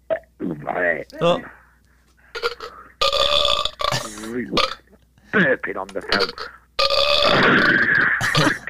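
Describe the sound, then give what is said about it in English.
A burping machine lets out a run of long, croaking burps over the phone, several in a row with short gaps between them. Each one is loud and raspy, and its pitch wobbles as it drags on. “burping on the phone. It's not me, it's my machine. I've got a machine here that does it. Hey, what a burping machine.”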